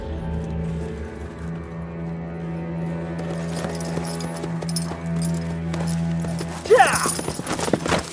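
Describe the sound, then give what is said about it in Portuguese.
Horse hooves clip-clop as the animal walks in circles, a steady run of soft hoof falls over a sustained tonal background, with sharper, louder hits near the end. “O gringo e o cavalo param. O cavalo dá voltas.”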